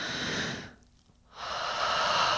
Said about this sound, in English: A nice deep breath.